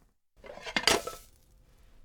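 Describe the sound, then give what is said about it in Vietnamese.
A frying pan is flipped onto a plate to turn out an omelette, making a short clatter of metal and crockery that builds to one sharp knock and then fades into a faint trailing rattle. “Một tay giữ chảo, tay kia giữ đĩa, rồi úp chảo thật nhanh để phần trứng tráng sẽ chuyển qua đĩa.”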